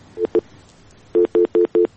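Telephone beeps after a phone call is cut off: two short electronic tones, a pause, then four evenly spaced steady beeps of the same mid pitch, clear and alone.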